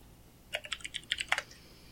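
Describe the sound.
Quick burst of typing on a computer keyboard while someone is looked up: a rapid run of crisp keystrokes packed into under a second, alone against a quiet background.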